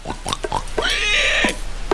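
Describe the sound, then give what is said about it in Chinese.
Wild boars grunting while feeding: a few short, low snorts, then a longer, drawn-out, higher grunt, and one more brief snort at the end, moderately loud. “这两只野猪正在干饭，其中一只一抬头，这是啥？他打算看看。”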